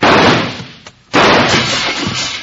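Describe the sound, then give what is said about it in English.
A gunshot shatters a window on a town street. Two loud, harsh bursts sound: the first fades over about a second, then a sharp second blast follows and its noisy roar carries on to the end. “who's doing that shooting? That came from this end of the street.”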